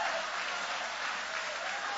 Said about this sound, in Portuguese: Podem tomar o vosso assento, guarda a Bíblia com carinho e podem aplaudir aquele que vive, aquele que reina para sempre.